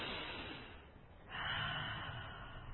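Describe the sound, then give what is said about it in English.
A deep breath drawn in and then let out slowly, a soft airy hiss that swells after about a second and holds steady to the end, quiet and alone. “to take a big breath and then let it out slow”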